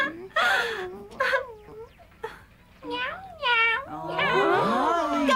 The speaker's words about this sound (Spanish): ¡Oh! ¡Qué lindo gato! ¡Miau! ¡Ese gatito!